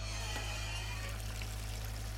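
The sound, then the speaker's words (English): Water runs from a hose into an assembled bin fitted with a pump. It makes a steady, even rush with a low constant hum underneath, unbroken and without voices. “Now that we have the bin assembled and the pump in place, we can get the water flowing. Would you like the honor of turning on the hose?”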